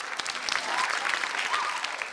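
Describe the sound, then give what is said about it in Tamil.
Steady applause from an audience, many hands clapping continuously at an even, fairly loud level. “Okay, இவங்களுக்கும் பலத்த கைத்தட்டலை கொடுத்துருவோம்.”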